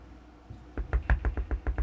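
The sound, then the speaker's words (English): Knocking on a door: after a faint lead-in, a quick series of firm knocks starts up, about eight sharp raps in an uneven rhythm, sounding alone. “Oh look, there's a knock at the door.”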